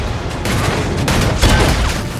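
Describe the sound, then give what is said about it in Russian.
A naval deck gun fires rapidly at a surfaced submarine: a few loud, heavy blasts over a dense, continuous roar of gunfire with no voices. “Орудие Грейхаунда лихорадочно обстреливает всплывшую подводную лодку.”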